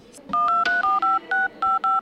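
Touch-tone keypad beeps as a telephone number is dialed to call a friend: eight short, steady two-tone beeps in an uneven rhythm, each clear and moderately loud over a faint background hum.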